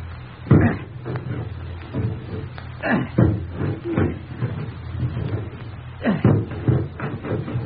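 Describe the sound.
An axe chops at a locked door in a series of heavy, dull, muffled thuds, coming singly and in quick pairs at an irregular pace.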